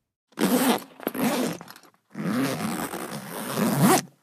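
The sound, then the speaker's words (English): Zip on a school backpack being pulled, a couple of long, rasping, scratchy strokes with a short pause between them, fairly loud and alone with no voices. “It's the sound of the zip on a backpack.”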